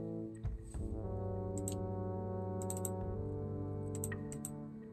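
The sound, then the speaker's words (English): A computer mouse clicks while someone tries to open page 2 of a document. A few crisp clicks come in small clusters over a steady, humming tone. “Come on, click on page 2. Hold on a sec. I'm still trying to click to page 2.”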